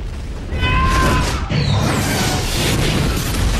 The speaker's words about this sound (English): A bomb blast closes the hatch